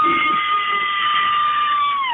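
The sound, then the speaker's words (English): A person screams loudly in one long, sustained, high-pitched shriek that holds a steady pitch and dips slightly at the very end. “Do you have a good scream for us?”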